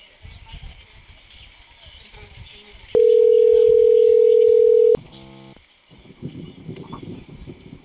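Telephone dial tone on a call placed from an emergency response centre: a steady, loud electronic tone holds for about two seconds, then a quick run of dialing tones follows, with muffled background noise before and after.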